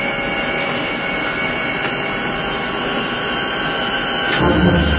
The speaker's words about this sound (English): Put the low-pressure blower on all the main ballast tanks for 10 minutes.